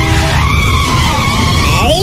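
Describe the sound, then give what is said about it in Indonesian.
A skidding car's tires shriek loudly, a sustained tonal squeal over a rumbling engine that sweeps into a sharp rising screech at the end. “Yun, awas mobil Yun, mobil.”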